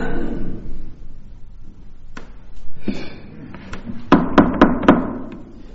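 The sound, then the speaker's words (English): Knocking at a door: a couple of isolated thumps, then a quick, evenly spaced run of four sharp knocks near the end. “somebody's at the door. Somebody answer the door.”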